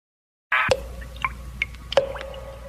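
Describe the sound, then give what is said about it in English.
Blood drips in a quiet space: several separate plinking drops, each a sharp, bright tick followed by a short ringing tail, spaced irregularly. “The sound you hear is dripping blood.”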